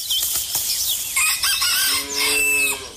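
A rooster crows on a farm. Short clucks and chirps come first, then a long, strained crow near the end, fairly loud with no talk.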